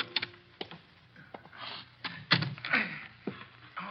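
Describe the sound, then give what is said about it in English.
Someone works a jammed door lock, producing faint, irregular metallic clicks, knocks and rattles spread across several seconds, with a few sharper jolts. “Blasted lock is jammed.”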